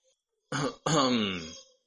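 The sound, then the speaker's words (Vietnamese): A young man clears his throat in a two-part voiced "ahem": a short burst, a brief break, then a longer, louder rasp that fades out. A performing voice produces it alone, with no other talk. “Thiếu niên lập tức nghiêm sắc mặt hắng giọng, nói.”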